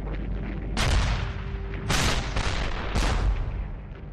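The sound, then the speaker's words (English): Heavy artillery guns fire an opening barrage on the Western Front: a few deep, booming blasts burst over a continuous low, rolling rumble. “The heavy guns of the artillery begin their opening barrage.”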